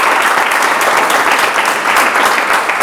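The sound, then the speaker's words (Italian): Audience applause for a guest, a book's author, fills the stretch as a dense, steady wash of many hands clapping, loud and even throughout with no voices on top. “E ti facciamo un applauso intanto”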